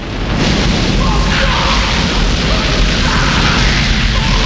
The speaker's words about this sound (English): releasing tons of corn into the silo shaft